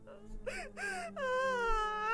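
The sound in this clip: A grieving mother wails and sobs over her son's coffin. A few short broken cries rise into a long, high, wavering wail that swells louder.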